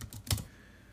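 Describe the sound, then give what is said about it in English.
Typing on a computer keyboard during a quick web search: a short, quiet burst of a few rapid key clicks, then the keys fall silent. “Let me just quickly type up here what the population of Phuket is.”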